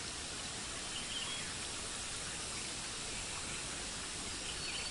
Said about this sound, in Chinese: 置身于大自然里面，流水的声音包围住你，